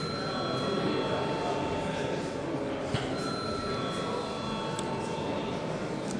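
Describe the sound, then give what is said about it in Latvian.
An electric bell rings in a parliament chamber before a vote, a sustained, steady ringing tone that continues unbroken over faint background noise. “Lūdzu zvanu.”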